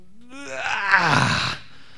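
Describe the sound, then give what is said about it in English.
A person groans alone: one drawn-out vocal moan lasting about a second and a half, rising in pitch and loudness into a strained middle, then sinking before it cuts off. “the response is usually that groaning. That's what the verse is talking about here when it says the Holy Spirit groans on our behalf. We groan as people. We'll just utter,”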